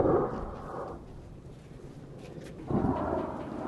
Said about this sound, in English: we watch as regime helicopters circle closer toward the village, firing rockets in the hills just beyond. It's the closest the regime forces have ever gotten to Kirkania. Fired twice? Yeah. Yep.